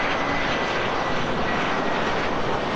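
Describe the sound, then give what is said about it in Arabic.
Airplanes taking off and landing at Brussels Airport make a loud, dense, continuous roar of aircraft engines that stays steady throughout, with no voices. “يعرف مطار بروكسل هذه الأيام ذروة حركة السفر الصيفي. طوابير من المسافرين وطائرات تقلع وتهبط في تتابع لا يتوقف، كأن كل شيء على ما يرام.”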